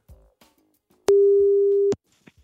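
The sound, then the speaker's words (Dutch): A telephone ringback tone sounds while a call is being placed: one steady, low beep lasting under a second, loud against near silence, with faint clicks around it. “We gaan eens even bellen met eh, Benjamin Kuiten.”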